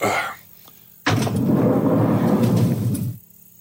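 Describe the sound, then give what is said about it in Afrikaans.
A door is opened: a loud rushing, rumbling noise starts abruptly after a quiet moment, holds steady for about two seconds, then cuts off sharply. “Sal jy net die deur kan oopmaak? Dis nogals bedompig hier binne.”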